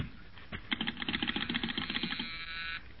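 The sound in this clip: A telephone being dialed in a comedy sketch: a run of many quick, even mechanical clicks that fades out near the end.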